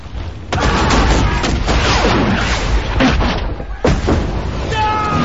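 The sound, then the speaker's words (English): Cannon fire exchanged between two warships in a naval battle through smoke. Heavy booming blasts hit, then a long rumbling roar follows, and another blast comes near the end. “The surprise begins its counter-attack, and the two ships exchange cannon fire through the smoke.”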